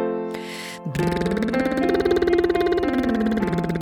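A motorboat lip trill vocal exercise adding the octave: a buzzing, rapidly pulsing voiced trill that climbs smoothly to a higher held pitch, sustains it, then glides back down.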